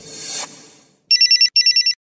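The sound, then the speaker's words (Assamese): An incoming call sets off a telephone ringtone: two quick bursts of high, warbling electronic trills, each made of four rapid pulses. A swell of broad noise fades away just before the trills. “এদিন ৰাতিপুৱা সি মোক কল কৰিলে”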